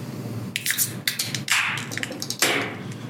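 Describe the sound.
A sour beer being opened: a few sharp taps and knocks with a short burst of fizzing hiss in the middle, fairly quiet, with no talking.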